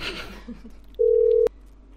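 Phone tone as a number is dialled: a single steady, mid-pitched beep lasting about half a second, ending in a sharp click, over low hum and faint background noise.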